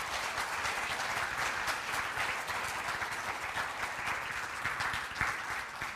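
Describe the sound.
Audience applause welcoming a rabbi to the stage at a messianic audience gathering: dense, continuous clapping that holds steady throughout at a fairly low level, with no voices over it.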